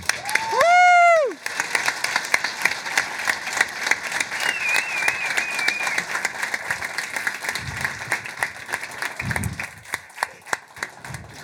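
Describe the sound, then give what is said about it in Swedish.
An audience applauds to congratulate a scholarship winner. The clapping is dense and sustained throughout, with crowd noise and a few louder claps standing out toward the end. “Jag tycker att vi ger Svea både en eh, grattis till stipendieapplåd men även en framgångsapplåd för framtiden.”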